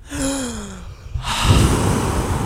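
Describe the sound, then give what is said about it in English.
A person drawing a deep breath: a long, airy rush of air that swells in and holds steady for more than a second, with no talking. “Right now, let's take a breath.”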